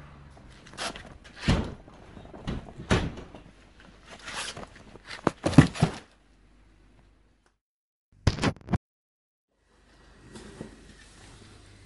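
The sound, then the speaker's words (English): A cardboard package box of books being opened: bursts of scraping, rustling and ripping cardboard, then a pause, a couple of sharper handling sounds and a quieter spell of rustling at the end. “Okay, I've got the box open.”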